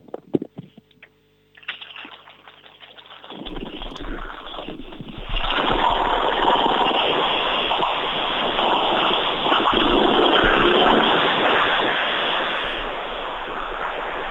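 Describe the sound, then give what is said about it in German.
Ural motorcycle engine starting: after a few quiet handling sounds, the engine turns over and catches into a loud, steady rumbling roar that holds to the end. “ich würde gerne mal deine Ural hören. Könntest du sie für uns mal starten? Die starte ich dir glatt mal.”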